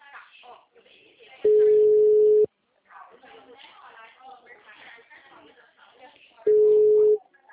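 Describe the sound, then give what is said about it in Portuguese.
Busy tone on a telephone line after a dropped call: two steady, mid-pitched tones, each about a second long, separated by a stretch of a person talking. “a ligação caiu”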